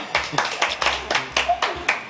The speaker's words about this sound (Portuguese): Efeito de palmas, efeito de palmas.